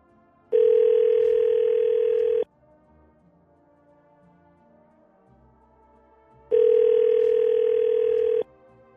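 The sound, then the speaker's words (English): Ringback tone of an outgoing telephone call: two steady, even-pitched buzzing tones, each about two seconds long, separated by a long silent gap, with no voices. “so we're going to call her right now”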